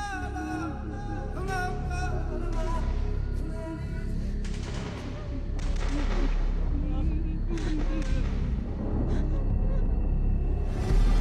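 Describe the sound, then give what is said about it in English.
Gunshots ring out from a village: several sharp, loud cracks and bursts over a continuous low rumble and a sustained tonal backdrop, growing denser in the second half. “shots ring out from the village.”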